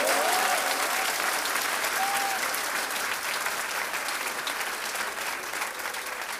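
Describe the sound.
Hand clapping from a crowd, dense and continuous, keeping a steady loud level that eases slightly toward the end, with faint traces of voices underneath.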